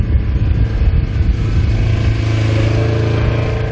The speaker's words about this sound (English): Kammeyer patrols the levee in an all-terrain vehicle